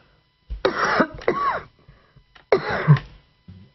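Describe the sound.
Someone clears their throat with a cough in a few rough, raspy bursts separated by short pauses, moderately loud against an otherwise quiet background.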